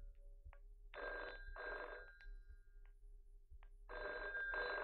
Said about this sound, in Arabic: ما ترد على التليفون.